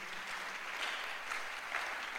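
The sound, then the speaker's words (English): A church audience claps together in a steady wash of hand claps with a light pulsing rhythm. The clapping is faint and continuous. “Come on, clap for Jesus. Clap for Jesus.”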